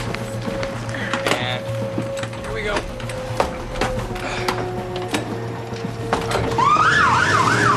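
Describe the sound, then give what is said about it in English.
An ambulance siren breaks into a rising-and-falling wail near the end as the ambulance races off toward a waiting aircraft with idling propellers, over a busy background with a steady low hum and scattered knocks. “The ambulance races off towards the waiting aircraft that has its propellers idling.”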